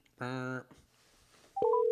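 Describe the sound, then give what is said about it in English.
Telephone keypad tones while placing a call: a short buzzy tone burst, a brief lull, then a few quick beeps running into a sustained, steady tone that holds to the end. “let's just make a call”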